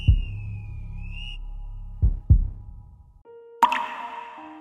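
Water drops plop a few times with low, hollow, resonant splashes, spaced apart, then a brighter ringing tone chimes in at the end.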